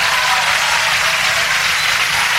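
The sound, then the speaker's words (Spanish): Audience applause for the drummer of a young Argentine rock trio introduced live, a steady, dense hiss of clapping that stays at an even level throughout. “Charlie es el baterista, un aplauso para Charlie.”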